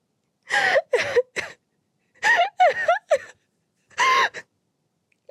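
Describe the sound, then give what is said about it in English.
Shaky, breathy sobbing from a person hiding in a cramped space under a dusty desk, coming in a few short clustered bursts of gasping, whimpering catches separated by brief silences. “I crawl in and hide. I start sobbing.”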